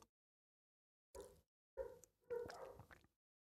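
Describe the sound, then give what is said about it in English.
A dog barks in three short bursts after a brief silence, the last one longer and rougher, with the whole sequence fairly faint. “my dog's barking at it now”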